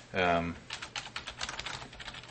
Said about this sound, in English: Going to I'll type my email because I don't care if people have it